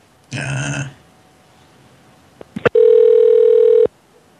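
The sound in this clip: A telephone rings while a call is being redialed: a short, bright burst of ringing, a few quick clicks, then a long, steady, loud tone that cuts off abruptly.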